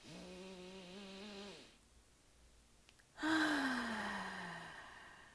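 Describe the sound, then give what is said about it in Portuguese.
A deep inhale through the nostrils of someone with a stuffy nose, loud and breathy with a whistling nasal tone that falls in pitch. A lower, humming breath sound and a quiet pause come before it. “Feche os olhos um pouco. Quero que você inspire profundamente pelas narinas.”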